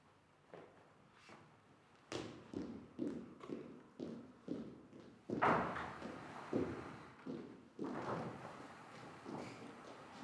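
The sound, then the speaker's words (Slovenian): Knocking on a door during a stage performance, a long series of dull, regular thuds at a steady pace, moderately loud, with a few heavier knocks among them. “Medtem ko gospa v 60-ih nestrpno čaka, da bo potrkala na vrata. In potrka.”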